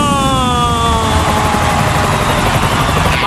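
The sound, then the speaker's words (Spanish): A jet airliner landing, a continuous loud roar with steady whining tonal bands that slowly glide downward in pitch and end in a brief rushing swell. “el vuelo de Ryanair. 5, 4, 3, 2, 1, aterriza.”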